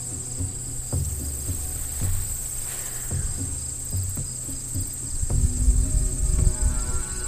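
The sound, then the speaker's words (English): Insects chirp outdoors in a steady, high-pitched continuous trill that runs unbroken throughout, with no talk. “Other than the bugs, it's pretty quiet.”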